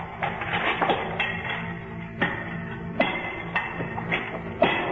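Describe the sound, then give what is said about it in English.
A crowbar prying at a stone slab gives a rough grinding scrape broken by several sharp, knocking metallic hits at irregular intervals. “I grabbed one of the crowbars.”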